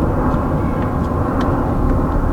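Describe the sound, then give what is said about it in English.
Airplanes flying overhead on the flight path into Heathrow produce a steady, broad roar of low rumbling noise. The sound holds an even loudness throughout with no distinct peaks. “So at certain times of day there's dense overflight of planes.”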